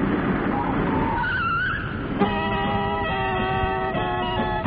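A taxi car pulls up with its tyres skidding: a rushing road noise carries a short high squeal, then gives way to a steady sustained tone that holds to the end.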